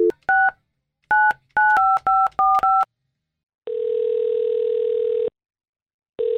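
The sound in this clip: Touch-tone telephone dialing: a quick series of short two-tone beeps as a number is keyed in, followed by a long, steady ringing tone that pauses and then starts again.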